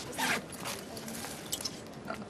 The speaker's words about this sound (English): Now, if you wouldn't mind opening your bag...